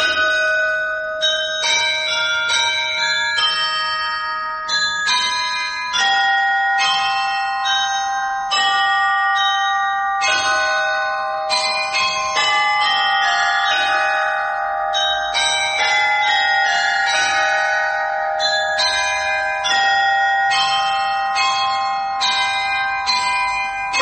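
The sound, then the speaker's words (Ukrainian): Carillon church bells ring out a melody, the Ukrainian national anthem, as many bright struck notes in a steady, stately rhythm, each tone ringing on and overlapping the next. “коли буде карильйон вигравати їх мелодії”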